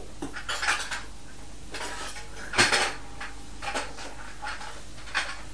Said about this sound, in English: He stepped in the pan.